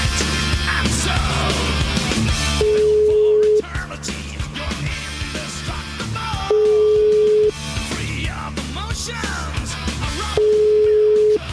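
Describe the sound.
Three steady, single-pitch ringback tones sound on a telephone line as someone is called back. Each lasts about a second, and they are evenly spaced several seconds apart over a continuous, busy background.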